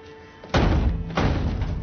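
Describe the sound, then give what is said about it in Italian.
A front door jolts from a bang, knocking snow off the ledge above, heard as two deep, heavy thuds about half a second apart, each with a broad rumbling tail. “La porta d'ingresso sobbalza, facendo cadere della neve dal cornicione.”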